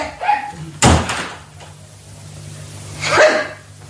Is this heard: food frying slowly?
no